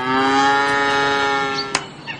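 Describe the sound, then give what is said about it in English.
A cow moos in one long, drawn-out call with a steady pitch as cows are let out of a barn in the morning, followed by a sharp click and a few faint, brief sounds. “Let's get those cows out of the barn. Wake up and smell the clover, cows.”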